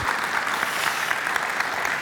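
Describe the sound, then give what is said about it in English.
Steady, dense applause from an audience welcoming a speaker to the stage, with continuous clapping at an even level throughout. “would you do me a favor and join me in giving a warm Venture welcome to Dave Hootke”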